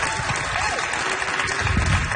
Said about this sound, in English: Let's give him one more round of applause.